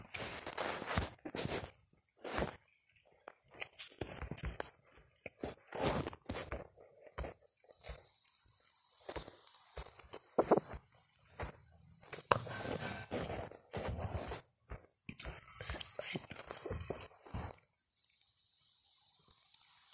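Footsteps walking in a video game full of desert zombies and skeletons, many quick, quiet steps coming in bursts separated by short pauses.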